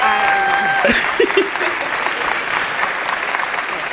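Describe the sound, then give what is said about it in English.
Applause sound effect: a dense, steady wash of clapping from a crowd that keeps an even loudness for the full four seconds, with a few short voice-like tones near the start. “I'm going to go back and put some applause here. I'll let you know that now, so you, when you hear it, you'll hear applause.”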